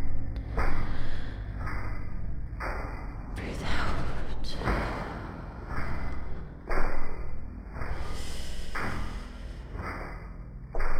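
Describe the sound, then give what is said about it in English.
Airy breathing sounds during a guided breathing exercise, centered on a deep breath in; a series of soft, breathy bursts separated by short pauses, fairly quiet overall. “Are you ready? Breathe in.”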